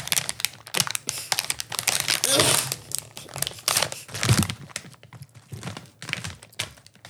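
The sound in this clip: Crinkling and tearing of a plastic Thai snack bag being ripped open, a dense run of many sharp, irregular crackling bursts at fairly loud level.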